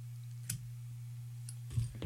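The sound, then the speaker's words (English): Scissors snipping excess cotton wick on a rebuildable atomizer deck: a few faint, sharp clicks stand out over a steady low hum. “Snip that shit off there.”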